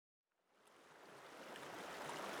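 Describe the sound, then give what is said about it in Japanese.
Water rushes steadily along a narrow, dirty river. It fades in from silence into a soft, even hiss that grows gradually fuller and stays continuous, faint and without distinct splashes or voices. “あ、見て見てダーリン、こんなところに川が流れてる。”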